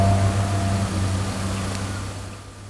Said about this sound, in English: Early M3, that's a nice little unit. Still sounds sweet, that old 6-0, doesn't it?